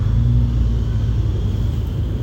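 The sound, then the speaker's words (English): Steady low engine rumble from a car driving in a parking area, a continuous deep drone that holds even in loudness from start to finish with no voices over it. “Did they drive in or are they driving out?”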